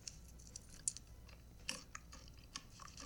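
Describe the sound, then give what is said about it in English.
Someone chews pretzels with faint crunches and moist mouth sounds, a steady run of chomps broken by a few sharper, crisper bites. “It's a food, so just guess what kind of food. Pretzels.”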